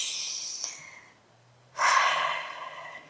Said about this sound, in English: One more breath.